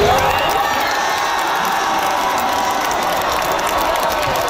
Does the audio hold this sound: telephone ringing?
no